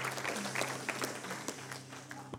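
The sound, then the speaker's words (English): Applause from a church audience welcoming a guest speaker at a Sunday night service: scattered sharp claps over a sustained low tone, moderately loud throughout. “Why don't you put your hands together and give a great big welcome”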